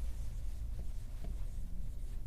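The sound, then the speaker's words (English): Faint scratching of a pen drawing a small figure, soft and intermittent over a steady low hum, with a couple of light strokes standing out. “See if I can draw my little guy here. There he is. I'll give him some eyes.”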